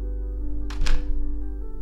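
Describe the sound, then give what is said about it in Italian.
A door slams shut with a single sharp, dry thud, a brief percussive burst over a steady low droning background. “La porta si chiude alle sue spalle con un colpo secco.”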